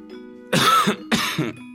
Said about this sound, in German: Ich weiß, ein Husten ist schwer zu unterdrücken.